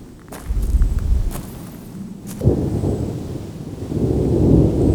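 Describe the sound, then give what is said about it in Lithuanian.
Thunder rumbles in the distance as a deep, rolling low roar that swells early, eases, surges again near the middle and keeps building toward the end, with faint crackling noise above the rumble. “Ir tolumoje, grumojant griaustiniui,”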